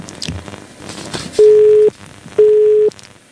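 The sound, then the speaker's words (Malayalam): Two steady beeps of a disconnected phone line after a dropped call, each about half a second long and at the same pitch, separated by a short pause and loud over faint background noise. “Call drop ആയിരിക്കുകയാണ്.”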